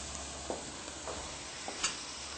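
Broth being stirred in a cooking pan, with a steady, faint sizzling hiss and a few soft scraping strokes rising briefly above it.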